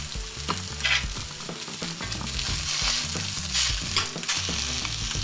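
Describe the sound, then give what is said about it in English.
A schnitzel sizzles while frying in a little oil, a steady, dense crackle and hiss with scattered sharper pops throughout, fairly loud and continuous with no talk. “And hear it sizzle? Oh, it's perfect. It didn't take much oil at all.”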